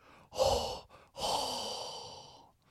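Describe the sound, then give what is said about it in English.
Exaggerated hot breath exhaled straight into a microphone: a short breathy gust, a brief pause, then a longer, louder exhale that slowly trails off, alone with no talking. “And you know what time it is. Say it with me now. Hot Breath.”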